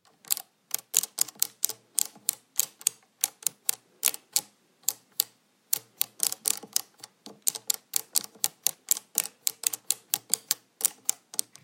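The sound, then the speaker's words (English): Beads of an abacus being moved while adding 20 numbers: many sharp wooden clicks in quick, uneven bursts, some fast runs and brief pauses, fairly faint and with no talk. “That was the sound of me adding 20 numbers on my abacus.”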